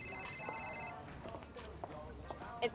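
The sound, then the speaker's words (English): Phone ringing with an incoming call, a steady high electronic tone through the first second that then gives way to people talking. “Your caller ID says it's Sloan. Oh. I'm assuming there's only one Sloan. Yeah. Should you answer it? No.”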